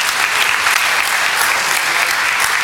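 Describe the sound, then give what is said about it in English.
Audience applause welcoming a speaker at a gathering about Jesus: dense, steady clapping from many hands that holds at an even level for the whole stretch, with no voices standing out. “So why don't we put our hands together? Let's give Mo a massive, massive welcome.”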